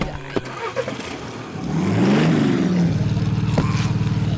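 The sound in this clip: A car drives off as its engine revs up, the tone climbing while it accelerates before settling into a loud, steady drone. A few faint knocks come before the engine note.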